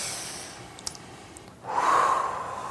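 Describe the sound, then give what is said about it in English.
A deep inhalation through the nose, taken during a calming tapping exercise, starts after a quiet pause and draws in as a soft, airy rush lasting about a second, alone with no speech. “Take a deep breath.”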